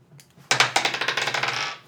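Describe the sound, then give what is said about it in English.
A hard twenty-sided die rolled during a tabletop role-playing game clatters across a surface in a rapid series of sharp ticking bounces that rattle quickly and then settle. “Roll a d20.”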